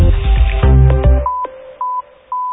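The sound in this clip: Telephone keypad tones dialing a short star-and-hash bank service code, a few brief, clear beeps with gaps between them, following the fading end of a musical sting.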